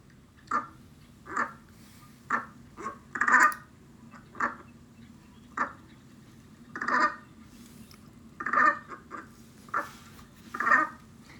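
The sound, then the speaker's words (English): Brant, a small stocky sea goose, calling in many short, gruff, honking notes spaced irregularly, some in quick pairs or clusters, each a brief nasal burst of moderate loudness with no talk. “That is the brant, which is our mystery sound. And the brant is a small, stocky sea goose that feeds on aquatic plants.”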